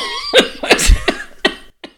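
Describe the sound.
A person with a tickle in the throat coughs in a quick burst of several short, sharp coughs, loud and close together, tapering off with a last small cough after a brief pause.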